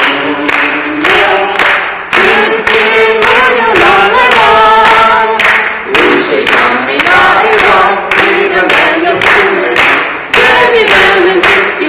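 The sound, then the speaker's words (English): Many hands clap in steady rhythm along with a group singing a French-language song, the loud, regular claps keeping time throughout as the voices carry the melody. “We can clap because that's what they do there too.”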